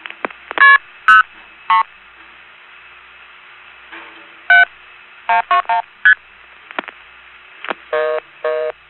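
Touch-tone telephone dialing of codes on a restricted line: many short, bright beeping tones in irregular groups, some in quick runs of two or three and some alone, over a faint steady hiss.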